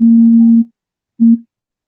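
A telephone tone cuts into a call: a loud, steady low beep lasting just over half a second, a brief silence, then a second, shorter beep of the same pitch, with no voices.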